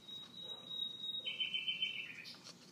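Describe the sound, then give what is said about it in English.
A nightingale singing in the background: faint, drawn-out whistled notes, a steady high tone giving way to a slightly lower one, then a brief chirp near the end, with no talking. “That's a nightingale in the background,”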